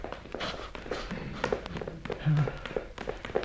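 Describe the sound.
Running footsteps as a sound effect in an Australian radio serial, many quick, irregular thuds and taps as people flee.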